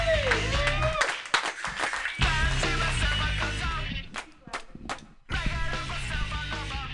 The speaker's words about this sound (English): So put your hands together, everybody, for Lucia!